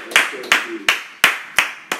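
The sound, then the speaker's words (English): A church audience claps in unison as a clap offering during a worship service. Six sharp, loud claps land at a steady, evenly spaced rhythm, each decaying quickly before the next. “Please be seated with a clap offering unto the Lord.”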